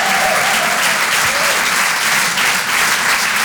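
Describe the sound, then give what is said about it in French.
Audience applause at a comedy club: dense, loud clapping from many hands, sustained evenly without a break from start to finish. “Faites du bruit pour Tristan Lucas sur les chansons.”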